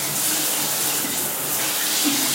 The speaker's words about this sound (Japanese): ちょっとシャワー流します。ちょっと洗いながら話します。